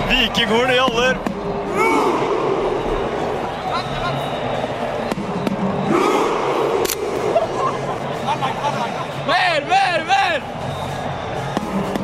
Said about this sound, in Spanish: Y hoy el sonido del día del Mundial es el de la grada de Noruega haciendo el marinero vikingo en la celebración de la victoria de su equipo en cada partido.